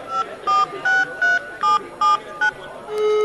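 Telephone keypad dialing tones: a quick, evenly spaced run of short, bright two-note beeps, about seven in a row, followed by a steadier sustained tone at the end.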